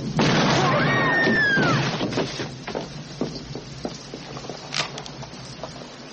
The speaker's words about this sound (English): Well, sir, you are a cowardly son of a bitch. You just shot an unarmed man.